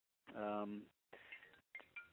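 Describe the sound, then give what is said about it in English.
A phone goes off with a short, steady buzzing tone lasting under a second, followed by a few shorter, softer bursts. “That's my phone. Hold on.”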